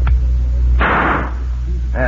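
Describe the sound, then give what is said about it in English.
A single gunshot aimed at a chip tossed into the air, a sharp loud burst with a short decaying tail, after which a man's voice begins. “That's how sure I am of the bullets in this gun. I never miss.”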